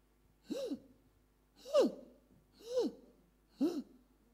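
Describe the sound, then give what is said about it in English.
A voice imitates the laboured, gasping breathing of a person dying of cancer: four drawn-out voiced gasps spaced about a second apart, each sliding up and then down in pitch, with quiet pauses between them. “Have you not seen somebody who is dying of cancer and suffering? The way they breathe.”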